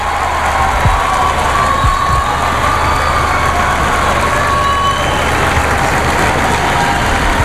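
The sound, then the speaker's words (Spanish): A street crowd waits and cheers outside the Nativity facade before a tower inauguration. Steady, even crowd noise fills the street with scattered cheering, and a low engine-like hum runs underneath. “Esa fachada del nacimiento. Ahí está, el sonido de la calle.”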